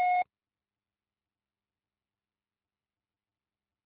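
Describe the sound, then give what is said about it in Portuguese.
A voicemail tone sounds before a message is left: one short, clear electronic beep at a steady mid pitch, followed by silence. “e estará sujeita à cobrança após o sinal. Deixe seu recado.”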